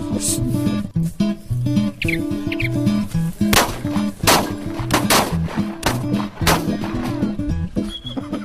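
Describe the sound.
Gunshots in a video game ring out as several sharp, loud cracks at irregular intervals over a continuous tonal backdrop, with no talking.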